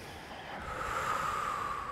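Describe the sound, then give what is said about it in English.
A long, deep exhale during a guided breathing exercise, a steady airy rush of breath that swells slightly and holds for about two seconds, with no talk over it. “Good last deep inhale. Deep exhale.”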